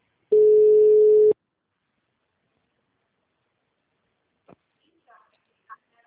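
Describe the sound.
A telephone line tone sounds while a call is placed: one steady, loud tone lasts about a second, then silence follows with a few faint clicks.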